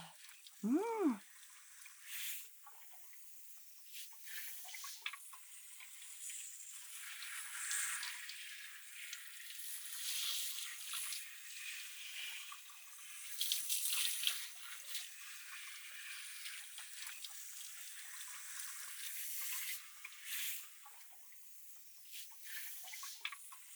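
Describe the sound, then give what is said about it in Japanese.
Shower water rinsing shampoo out of hair as fingers scrub the roots, a soft, hissy spray with squishy rubbing textures that swells and eases, faint and continuous. “シャンプーの成分が残ってるといけませんからね。シャワーで流しながら髪の根元をわしゃわしゃっとして、”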